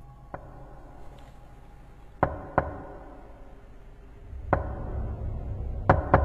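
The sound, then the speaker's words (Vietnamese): Knocking on a hard surface: several sharp, dry knocks at irregular intervals, some close together, with near-silence between them. “Những tiếng gõ lại tiếp tục vang lên, ba tiếng một.”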